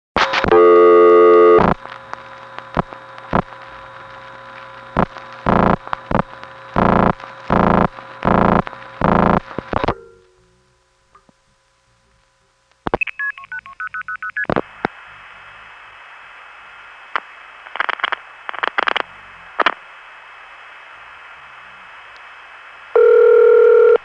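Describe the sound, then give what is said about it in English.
Telephone sounds: a dial tone gives way to a long series of sharp dialing tone bursts. After a few seconds of silence, another steady line tone hums beneath further scattered bursts, and the sequence ends on a loud tone. No voices are present. “here's a half an hour of telephone sound ambrosia”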